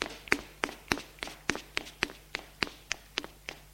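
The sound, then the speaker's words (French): Footsteps climbing stairs inside a house: about a dozen crisp, evenly spaced treads at a steady walking pace, each a sharp tap of similar loudness, with a faint low hum underneath and no voices. “Monte à l'étage pour aller dans sa chambre.”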